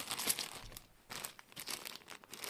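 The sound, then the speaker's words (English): Paper crinkles and tears as an envelope holding a couple of Lego dice is opened. Several short, faint rustles and rips follow one another with brief pauses between them. “I've just opened up an envelope containing a couple of those Lego dice.”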